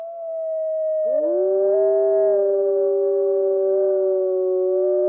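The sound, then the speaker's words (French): Wolves howl in a Canadian forest at nightfall, a small group in long, loud, sustained tones that overlap; one voice holds a steady note before lower howls join it, and the chorus continues unbroken to the end. “voici le chant des loups, enregistré au Canada, car encore très rare en France.”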